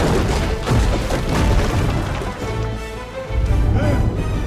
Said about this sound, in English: Hit the pillars! Now! Logs pound at the stones at the base of the towers.